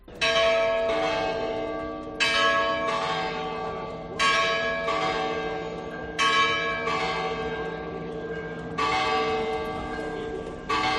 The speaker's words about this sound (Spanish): el reloj del Ayuntamiento de Guadalajara ha vuelto a sonar tras un año de restauración y rehabilitación de la Torre del Campanario